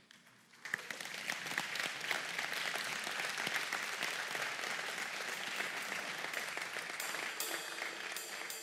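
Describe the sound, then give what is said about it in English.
A church audience claps steadily in sustained, dense applause that starts abruptly after a quiet moment and holds at an even level to the end. “We clap for you because you are everything.”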